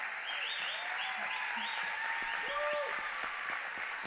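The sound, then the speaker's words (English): Audience applause at a church gathering as a guest is welcomed onto the stage: a dense, steady clapping that stays loud and even for the whole stretch, with some voices mixed into the crowd. “Hey, can you put your hands together?”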